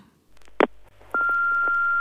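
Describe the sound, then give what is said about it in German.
An answering machine beep sounds: a short burst of noise, then a long, steady, high-pitched tone that holds to the end. “Unser Anrufbeantworter.”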